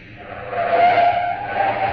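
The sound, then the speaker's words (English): An old sports car's engine revs hard as it is driven up to a curb on Sunset Strip, a broad roar that swells and holds for about two seconds with a slight tire-like squeal, and no voices. “The car jock gunned my old sports car up to the curb.”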